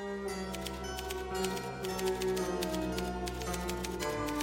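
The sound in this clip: Typewriter keys clack as rhythmic percussion inside a film score, many irregular sharp clicks and taps running over sustained orchestral music at a steady moderate level.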